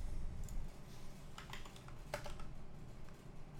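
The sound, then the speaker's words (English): Keys clack on a computer keyboard, faint and quick, with a few short clusters of keystrokes over a low steady hum. “Type in dev, D-E-V, and then click on device manager.”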